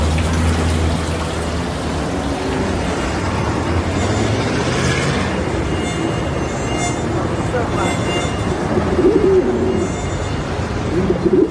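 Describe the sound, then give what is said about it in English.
A pigeon nesting in the eaves of a skyscraper coos in the city, soft low calls faint within a dense, constant wash of urban noise. “Like the pigeon who has made its nest in the eaves of a skyscraper”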